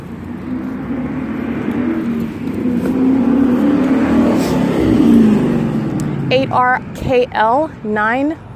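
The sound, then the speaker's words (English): A white Ford Mustang drives up to a stoplight at a street intersection, its engine and road noise swelling into a steady loud rumble that holds for several seconds, then dropping back as a man starts talking over the fading traffic. “That's a white Mustang that just drove up to this to the stoplight at Plum and Holt.”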